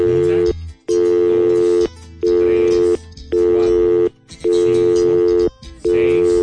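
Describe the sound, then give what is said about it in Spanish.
Telephone line tones as a caller dials into a phone-in line: a steady, buzzing electronic tone repeating in long, loud bursts separated by short gaps, with no voices over it. “Que están marcando. Hay alguien que está marcando ahorita.”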